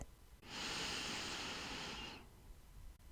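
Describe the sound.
A single deep breath in during a guided breathing exercise. It is a soft, airy hiss that swells quickly, holds steady for under two seconds, then fades. It is fairly faint and heard alone, with no talk.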